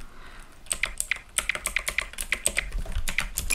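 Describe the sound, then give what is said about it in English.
Someone types a cheat code into a video game on a computer keyboard: many quick, crisp keystrokes in an uneven rhythm, heard on their own with no talking. “Okay, so you have to type no more fun to get rid of the cheat.”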